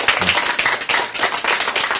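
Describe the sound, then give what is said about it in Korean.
Applause from listeners during a church sermon: dense, steady clapping that runs the full length, loud and even with no pause. “박수”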